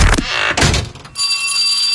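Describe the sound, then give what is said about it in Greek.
A school bell rings for the first day of the school year. A couple of loud, noisy thumps come first, then a bright, sustained metallic ringing with a steady tone. “Και τώρα που χτύπησε το πρώτο κουδούνι”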